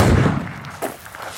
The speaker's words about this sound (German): Nachher legt man sich auf eine Matte, bringt das Gewehr in Position und zielt. Trotz Gehörschutz blasst es einem fast durch weg.